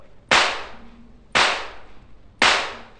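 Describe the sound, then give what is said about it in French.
An orchestral whip cracks three times alone, each a sharp, loud slap evenly spaced about a second apart, with a brief fading tail after each strike. “Le fouet.”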